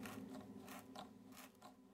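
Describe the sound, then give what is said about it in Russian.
Faint ratcheting clicks come from a pocket tool tightening bolts to fit a part back into place, heard as several short repeated mechanical bursts. “Здесь мне поможет карманный инструмент. Благо, болты на месте. Так, поставим на место эту штуку.”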